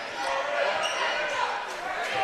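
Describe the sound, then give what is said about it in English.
A basketball is dribbled during a game, giving a few dull low bounces under a loud, steady crowd roar, while a commentator talks over it. “Wells dribbles it.”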